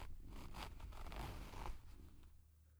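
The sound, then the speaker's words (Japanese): The zipper on a pair of trousers is pulled open, a faint, continuous rasping of teeth that runs for nearly two seconds before fading out, with no voices. “ズボンのファスナーを開けて”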